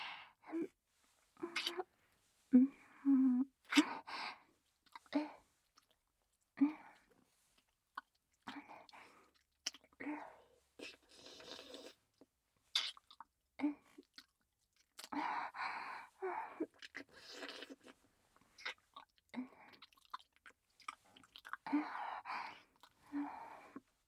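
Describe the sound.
Wet licking and mouth sounds from an ASMR role-play, soft and close, arriving in many short bursts separated by brief pauses.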